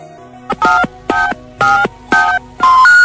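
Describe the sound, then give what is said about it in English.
Telephone keypad dialing tones during a prank phone call: a quick run of about five evenly spaced dual-tone beeps, the last held a little longer, over a faint background hum. “The fingers you have used to dial are too fat. To obtain a special dialing wand, please mash the keypad with your palm now.”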